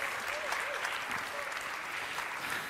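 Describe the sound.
Church audience applauding to welcome a family onto the platform for a child dedication, a steady, unbroken wash of clapping that holds an even loudness throughout.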